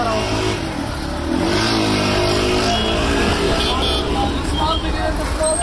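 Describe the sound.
Car traffic fills a city street in Afghanistan, with engines revving and passing in a loud, steady roar while voices talk underneath.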